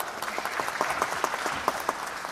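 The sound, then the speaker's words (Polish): Applause for a student in a music class, a short burst of steady, moderately loud clapping from a group with scattered sharper individual claps, heard alone without talk. “Brawo, brawa dla kolegi.”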